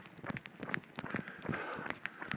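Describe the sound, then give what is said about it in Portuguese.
Running footsteps during a training run: many quick, light footfalls land in a steady rhythm, soft and fairly faint throughout. “hoje eu estou pegando forte na corrida, nesse treino”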